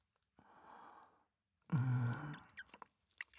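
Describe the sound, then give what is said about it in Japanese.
Soft, wet chewing of melted, gooey food, heard close and faint. A breathy rush comes first, then a brief hummed voice, followed by a few small moist smacking clicks. “もうすっかりトロトロなので、全部食べちゃいますね。いただきます。”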